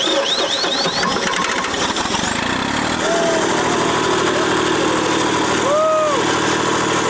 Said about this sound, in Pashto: جنراتور چلانه سو، میدان رڼا سو